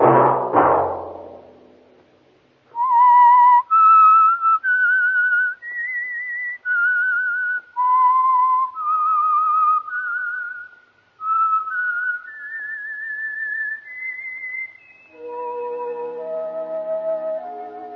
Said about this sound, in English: That whistle be your signal for the Signal Oil program, The Whistler